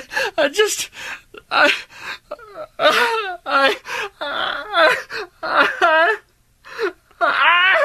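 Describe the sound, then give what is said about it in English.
A person crying: wavering wails and whimpers broken by gasping breaths, coming in uneven sobbing bursts with brief pauses between them. “Why are you crying?”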